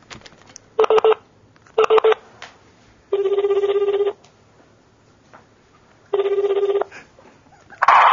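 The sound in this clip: Telephone dialing tones and ringing on speakerphone: two short bursts of dial tones, then two longer steady ringback tones separated by a pause, clear and fairly loud over low background hiss.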